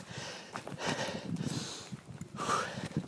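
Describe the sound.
Footsteps walk carefully across slippery stone, a few soft, uneven scuffing steps, faint and unhurried.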